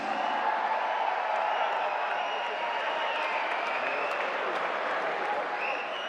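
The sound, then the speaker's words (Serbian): Audience applause greeting a performer at an evening music show: dense, sustained clapping from a crowd that stays loud and steady for the whole stretch without a break. “To ću zamoliti vas da je pozdravimo najvećim aplauzom, jer ona je Milica Jokić!”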